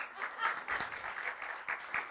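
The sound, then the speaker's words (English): Audience applause for a speaker's PhD in plant pathology: a soft, sustained patter of clapping hands that swells briefly in a few places and stays fairly faint overall. “I got my PhD in plant pathology. I want the applause for that.”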